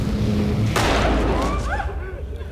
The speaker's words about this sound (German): 2 feuert mit seiner Schrotflinte den Warnschuss ab, bevor er die Waffe auf die Bankangestellten richtet